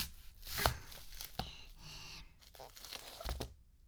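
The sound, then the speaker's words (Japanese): A kitchen knife cutting an onion in half on a board: a few sharp, crunchy cutting strikes with softer crackling slices between them, and no talk. “最後は玉ねぎみじん切り。まず半分に切って、”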